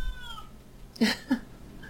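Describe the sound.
A cat meows twice in quick succession, with two short, loud cries standing out over a quiet background and no talk.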